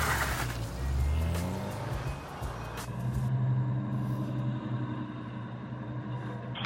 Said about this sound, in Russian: Это такси, машинка подъехала.